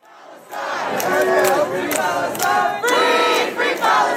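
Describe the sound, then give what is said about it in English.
Student protesters chant on Columbia University's campus at an encampment protesting the war in Gaza: a crowd of voices shouts rhythmic slogans in unison, loud and sustained, with short pauses between repeated phrases. “That's the sound of chanting early this morning on Columbia University's campus.”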